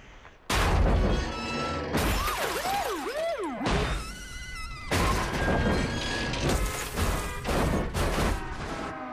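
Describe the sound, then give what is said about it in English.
A runaway RV rolls into two cars and flattens both, starting with a sudden loud crash followed by several more heavy smashes and booming impacts, mixed with wavering, swooping pitched tones. “He turns round to see the RV has flattened both the cop's car and that of his new bosses.”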